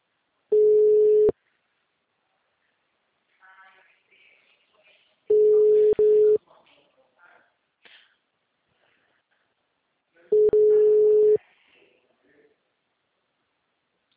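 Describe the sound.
An unanswered telephone call produces three long, steady beeps of about a second each, separated by several seconds of near silence. Faint murmurs of voices and small noises fill the gaps.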